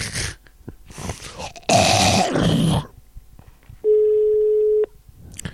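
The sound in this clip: Telephone ringback tone on a call the other party does not answer: one steady, mid-pitched tone lasting about a second, following short bursts of noise.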